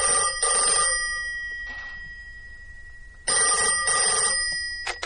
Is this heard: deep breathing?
no

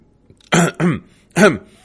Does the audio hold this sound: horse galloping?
no

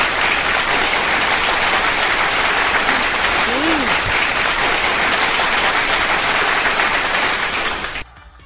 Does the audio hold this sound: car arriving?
no

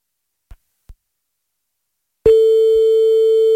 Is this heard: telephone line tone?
yes

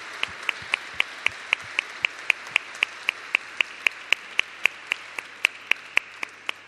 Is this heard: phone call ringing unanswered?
no

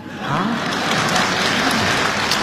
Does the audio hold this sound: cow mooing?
no

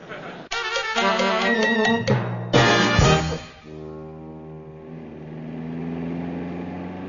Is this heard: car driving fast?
yes

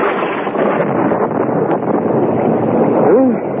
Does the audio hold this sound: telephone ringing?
no

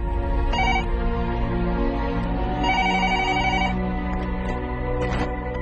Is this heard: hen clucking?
no

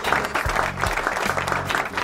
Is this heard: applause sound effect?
yes

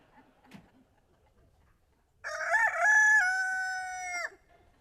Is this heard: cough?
no

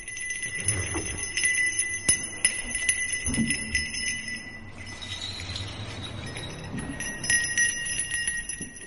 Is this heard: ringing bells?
yes

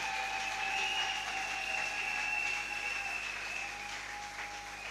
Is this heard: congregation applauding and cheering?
yes

